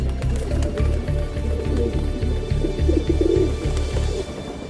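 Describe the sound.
Pigeons cooing in a city, low soft coos repeating steadily throughout with a faint chirp or two above them.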